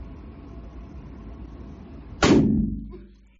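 A single loud gunshot from a large-calibre pistol cracks sharply after a quiet stretch of low background noise, then decays in a fading tail.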